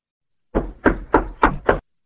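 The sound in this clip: Five firm knocks on a door in an even, steady rhythm, each a short dull thud. No voices are heard.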